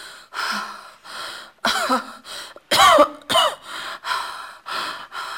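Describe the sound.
Someone suffering from fever and cough lets out a long series of harsh, raspy coughs and throat-clearing. The bursts are separated by short breaths, and several near the middle are louder and more forceful.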